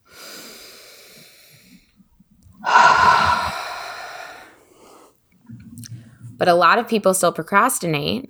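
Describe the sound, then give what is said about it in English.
A deep breath: a soft, airy inhale followed by a louder, longer breathy exhale. A person then starts talking. “Deep breath.”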